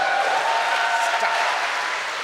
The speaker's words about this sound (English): Thanks but, for the applause, everybody.